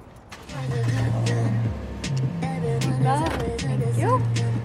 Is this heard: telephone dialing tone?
no

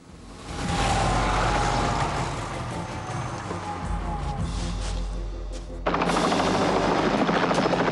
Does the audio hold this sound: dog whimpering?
no

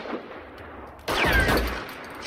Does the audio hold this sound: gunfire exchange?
yes

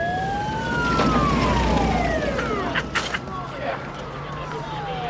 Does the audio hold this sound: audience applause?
no

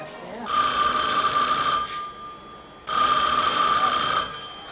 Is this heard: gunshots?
no

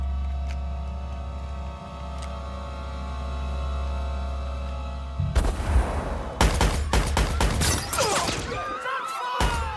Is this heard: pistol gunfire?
yes

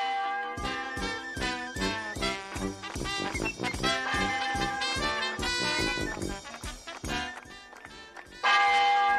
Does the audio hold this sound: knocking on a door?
no

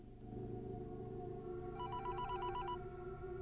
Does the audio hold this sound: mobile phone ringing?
yes

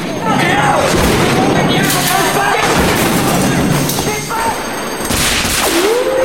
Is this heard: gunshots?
yes

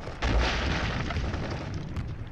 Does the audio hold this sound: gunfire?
yes

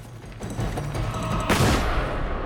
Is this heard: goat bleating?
no

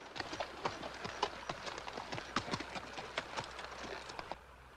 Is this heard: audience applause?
no

